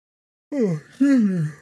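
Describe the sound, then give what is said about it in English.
A voiced yawn from a man: two drawn-out, moaning breaths, each sliding downward in pitch. A short dip separates them, and silence comes before. “excuse me, guys, I just yawned.”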